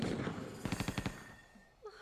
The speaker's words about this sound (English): He's shooting everywhere and it's not doing anything to the plane